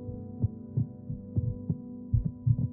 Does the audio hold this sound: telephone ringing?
no